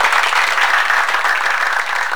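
Applause fills the stretch after a birthday greeting: a steady, dense wash of many hands clapping, loud and even throughout with no voices on top.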